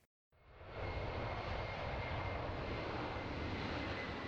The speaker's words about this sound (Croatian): Avioni sleću u Indiju sa dozama vakcina koje građani te zemlje željno iščekuju